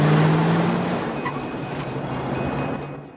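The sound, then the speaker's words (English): A car engine and road noise hold steady as two men drive up the narrow road of a cemetery. The sound stays fairly loud throughout and drops slightly near the end. “Max and Mark drive up the narrow road of a cemetery.”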